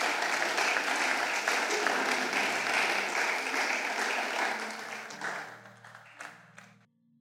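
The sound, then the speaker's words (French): A church audience applauds to acclaim the Lord during a service, a thick sustained clapping that holds strong for several seconds, then thins out into a few scattered claps before fading away. “Il va s'approcher, nous serons en train d'acclamer le Seigneur.”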